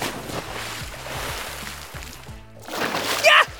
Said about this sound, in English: I will swim across the pond! They sank. No problem! I'll save you, Kapow!